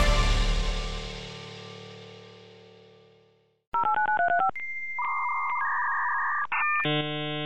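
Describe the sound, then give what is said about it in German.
Dial-up modem from 1995 connecting to the internet: a fading ringing tone, then a quick run of touch-tone dialing beeps followed by sustained electronic tones that switch pitch a few times. “Das ist das Geräusch eines Modems, mit dem man 1995 ins Internet gehen konnte.”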